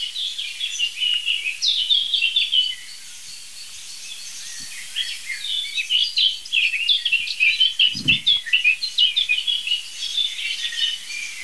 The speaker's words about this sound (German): Aber es ist Amsel-Singdrossel only, würde ich sagen.